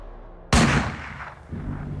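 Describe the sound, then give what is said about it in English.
A single loud gunshot from a .38 caliber revolver cracks out sharply, then fades in a long, rumbling decay. “his father raised a .38 caliber revolver, aimed, and pulled the trigger.”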